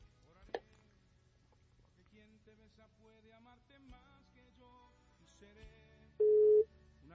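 A single ringback tone from a redialed telephone call ringing out: a loud, steady, mid-pitched tone lasting about half a second, after a quiet stretch with one sharp click near the start.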